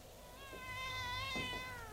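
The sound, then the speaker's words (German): A young cat meows in one drawn-out, high, tonal cry that rises slightly and then trails off, faint and heard alone. “Ach, eine junge Katze.”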